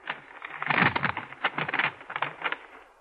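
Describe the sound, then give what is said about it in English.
An envelope is opened with crisp paper crackling and tearing, heard as a run of many short, rustling bursts of uneven loudness. “And now I open the envelope.”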